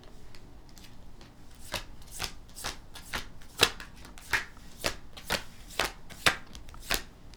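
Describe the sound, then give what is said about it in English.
Shuffling of a tarot deck: a run of many crisp riffling and slapping bursts at a fairly regular pace, with a soft papery hiss between them and no voices. “We're getting a lot of cards, though. Like, popping out of the deck.”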